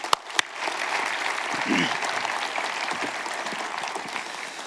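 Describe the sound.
A church audience applauds to welcome a speaker. Two sharp clicks come first, then the clapping swells into steady, even applause that carries a faint voice and holds to the end.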